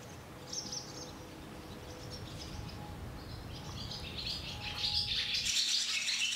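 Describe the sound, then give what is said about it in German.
Swallows fly and call on a high-summer day, giving faint, high twittering chirps in scattered bursts over a low, steady background rumble. The calls grow busier and more frequent toward the end. “Hochsommer, Jagdwetter für die Schwalben. Es fliegen endlich genügend Insekten und es gibt Futter für alle.”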